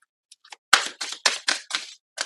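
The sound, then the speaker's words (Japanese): An oracle card being drawn from a deck: a few faint ticks, then about six crisp, papery swishes and snaps in fairly even succession. “それではかずみさん、ちょっとオラクルカード引いていきますね。”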